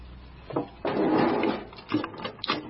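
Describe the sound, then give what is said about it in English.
A wooden drawer is shoved shut with a longer scraping slide, then a few short clicks and knocks as it is locked. “maybe we should just shove it in a drawer and lock it before our students arrive tomorrow, yeah? Okay, the valuables drawer.”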